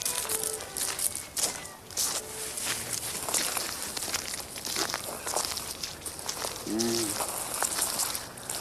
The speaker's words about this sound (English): There's not much noise gets in there, and I have permission to go walk on the roof, which is great.